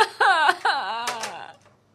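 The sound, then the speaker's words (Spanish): A woman cries over the phone in wailing, sobbing bursts of wavering pitch that trail off into faint whimpers. “Pero nena, deja de llorar que no te entiendo nada.”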